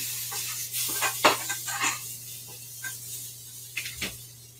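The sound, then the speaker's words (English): Sweet potatoes are stirred in a pan, with a few soft scrapes and clinks of a utensil against the metal over a faint steady hum. “And and now I'm going to stir my potatoes more.”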